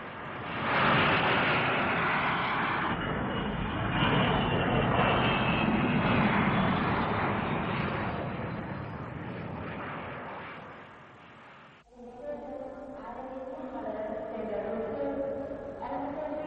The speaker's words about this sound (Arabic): عن إذنك، الطيارة قربت تنزل.